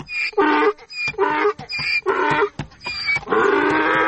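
Donkey braying in a loud, rhythmic series of harsh hee-haw cries that alternate between rasping high notes and lower honks, ending on a longer drawn-out bray.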